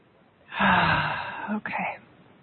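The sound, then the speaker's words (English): A single deep breath drawn in, loud and airy over about a second, followed after a brief break by a shorter breathy release. “let's take a nice deep breath here, please.”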